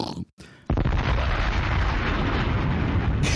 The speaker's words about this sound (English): Hey, do we have that bomb sound that we can make? Yeah.